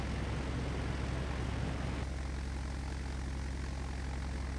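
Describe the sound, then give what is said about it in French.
Propeller aircraft engine drones steadily as the plane takes off from runway 29, a loud, dense, buzzing roar with a low pulsing throb whose tone shifts slightly partway through, heard alone without voices. “Roméo Serra, décollé.”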